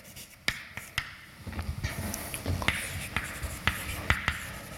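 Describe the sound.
Chalk or marker strokes on a board during a university mathematics lecture, with many sharp taps and short scratchy strokes in an uneven rhythm, moderately faint and without talk.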